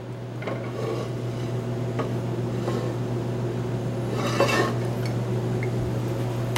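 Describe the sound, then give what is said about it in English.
A saute pan is handled on a stovetop while cooking, making a few faint metallic clinks and knocks, one a slightly louder clatter, over a steady low hum. “Now down here, I've got my saute pan. And what I'm going to put in there is going to be some olive oil.”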